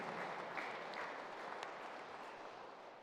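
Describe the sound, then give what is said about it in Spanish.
Audience applause for a martyred priest at a religious feast-day celebration: dense, steady clapping from many hands that runs throughout and eases slightly toward the end. “Demos un fuerte aplauso a este santo sacerdote mártir, mártir de la fe,”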